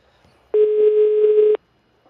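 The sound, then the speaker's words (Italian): A single steady electronic telephone tone sounds as a call is dialed. It holds one even pitch for about a second, loud and alone, with silence before and after. “Proviamo a chiamarla, va, su, proviamo a chiamare, a fare il numero di telefono”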